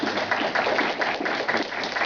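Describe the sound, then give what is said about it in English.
An audience claps to thank a speaker after a talk, a steady, fairly loud round of many hands with a slightly pulsing texture and no voices. “So I'd just like if we could be just giving a round of applause and thanking Michael.”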